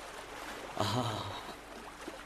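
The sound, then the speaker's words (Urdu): A flowing river makes a steady rushing wash of water noise throughout, and a voice is briefly heard partway through. “کانوں میں موسیقی کا رس کھولتی دریا کی آواز”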